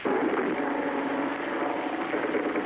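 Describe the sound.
A bomber aircraft flies over during a wartime air raid on Manila, a steady, dense engine drone that stays loud and unbroken throughout, with no distinct separate events.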